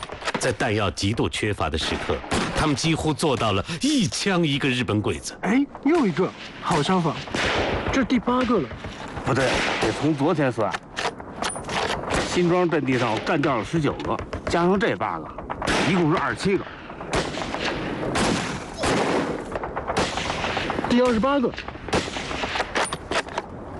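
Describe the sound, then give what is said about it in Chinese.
Dense gunfire in a wartime battle, with fighters firing to draw the enemy away. Rapid shots and bursts pile up without pause, and voices can be heard through the din. “来不及了，开枪把敌人引过来，不然老百姓一个也逃不了。”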